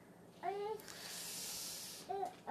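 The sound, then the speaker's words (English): A toddler girl babbles in two short, high-pitched squealing bursts, one early and one near the end, over a steady background hiss. “Sorry if you hear our toddler in the background, by the way.”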